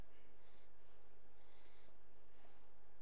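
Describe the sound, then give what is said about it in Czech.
Faint, soft scratchy strokes of two circles being drawn on a board, a few sweeping marks heard alone in near silence. “Nakreslím tady dva kruhy.”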